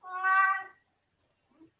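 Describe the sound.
A cat gives a single loud, drawn-out meow lasting under a second, followed by a few faint small sounds and then quiet.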